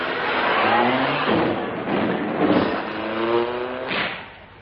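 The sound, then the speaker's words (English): A taxi drives off, its engine revving and accelerating over a loud, continuous rumble of road noise. “Taxi, drive me to the House of Lords.”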